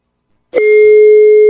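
A telephone dial tone sounds while a call is being placed: after silence, a single steady, unbroken tone starts abruptly and holds at a constant loud level to the end.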